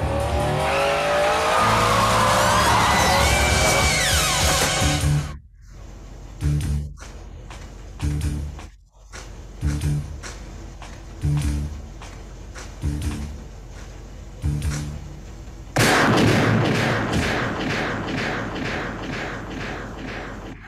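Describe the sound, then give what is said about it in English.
A motorcycle engine roars and revs in a film death scene, with a tyre squeal and a sustained loud stretch, then a run of choppy, intermittent bursts separated by short gaps, before the loud engine noise returns. “Dance or Die, motorcyclist shot in the fucking face.”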